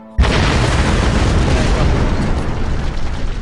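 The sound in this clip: A sudden loud explosion bursts in abruptly after a brief quiet moment and becomes a sustained, heavy, rumbling roar that stays loud and unbroken to the end.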